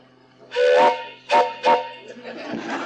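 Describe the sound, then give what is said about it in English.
A hand-held train whistle blows three times: one long, breathy blast, then two shorter ones close together, followed by a softer, hissing whistle tone that trails off. “I'd like for you to hear my whistle anyhow.”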